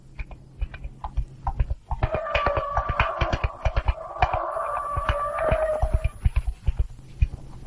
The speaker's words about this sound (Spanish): Dispara al candelabro y se marcha a caballo.